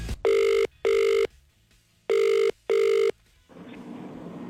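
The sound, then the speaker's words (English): A telephone rings for an outgoing call: a loud, steady electronic double ring heard twice, four bursts in all, followed by soft line hiss. “It is time to ring our next caller.”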